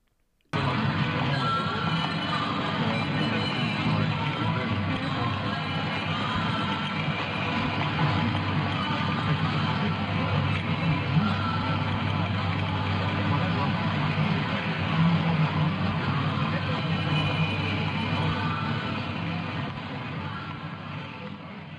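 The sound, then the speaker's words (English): Supermarket ambience opens an album track, a steady wash of store background noise with a murmur of indistinct voices, holding level for most of its length before fading toward the end. “So this last track started like the beginning of it with that supermarket noise again”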